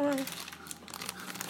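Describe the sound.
Dry, crinkly crackling of a bag being crumpled up to be thrown away. The rustle is steady and medium-loud for about a second and a half, with small sharp crackles scattered through it.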